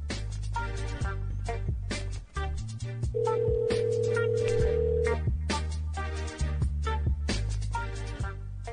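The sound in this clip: A pop-style ringback song plays over the phone line on an outgoing call to a Sprint number, with a steady beat and one long held tone in the middle. No voices are heard.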